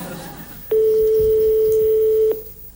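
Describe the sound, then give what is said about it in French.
After a number is dialled, the phone line rings with one long, steady, mid-pitched tone that lasts over a second and then stops, with low background noise around it. “Attention. Ça sonne. Ça ressonne.”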